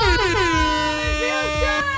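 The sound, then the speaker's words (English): A loud air horn blast: one sustained, blaring, multi-toned note held for about two seconds, its pitch dipping slightly at the onset before holding steady. “Nothing like an air horn on a Thursday. I know. Our bosses love the air horn.”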